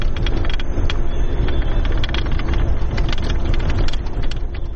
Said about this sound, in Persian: این صدای زره پاشخای حاموی است که نیروهای افغان آن را به شهر ترینکوت، مناطقی که تازه از وجود طالبان پاکسازی شدند، انتقال می دهند.